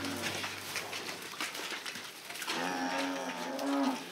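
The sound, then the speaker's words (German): Young cattle moo as they are let out to pasture on a farm for the first time after months in the barn, drawn-out lowing calls rising in the second half, amid a busy background with bird cooing. “Das Jungvieh kommt raus. Nach Monaten im Stall dürfen die Rinder zum ersten Mal auf die Weide.”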